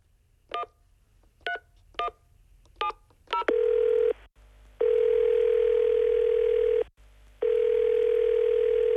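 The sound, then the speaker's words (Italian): A telephone number is dialed on a keypad: several short, bright touch-tone beeps in an uneven rhythm, then long, steady electronic line tones broken by brief gaps. “Giusto, hai il suo numero? Sì, la chiamo subito.”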